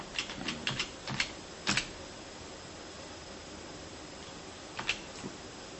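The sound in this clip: A button being pressed, heard as faint mechanical clicks: a quick cluster of several taps, a long pause, then two more, over a steady low hiss.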